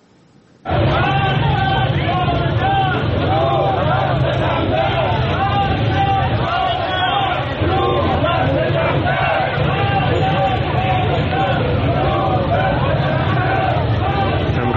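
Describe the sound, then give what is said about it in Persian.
A loud crowd of protesting Hepco and Azarab factory workers in Arak, rallying over unpaid wages, bursts in abruptly and keeps up a dense, continuous wall of shouting and chanting voices. “گروهی از کارگران روز دوشنبه و سه شنبه در عراق دست به حرکت اعتراضی و تجمع زدن.”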